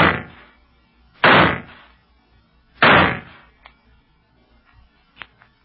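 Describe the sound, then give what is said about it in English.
A signal gun fired in the desert: sharp, loud bangs, one cut off at the very start and two more full blasts spaced about a second and a half apart, then only faint clicks. “Well, I have no choice but to fire a signal.”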